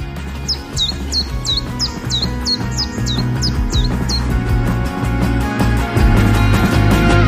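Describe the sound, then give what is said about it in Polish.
A bird sings a rapid series of about a dozen bright, high chirps, each a quick down-sweeping note repeated at an even rhythm. The chirps sound over a dense, steady, lower background and stop partway through. “Może słuchali ptaków?”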